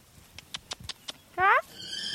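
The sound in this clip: A horse at the paddock of an animal-assisted therapy centre with a riding stable gives one short, bright whinny, preceded by a few soft thuds.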